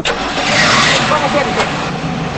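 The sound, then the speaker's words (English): A car engine starts and the car drives off from a parking lot, a loud, continuous, broad rushing engine roar that holds steady through the short moment. “He drives off and leaves her standing in the parking lot.”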